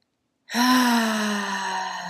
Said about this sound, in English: I'm going to do an audible exhale through the mouth.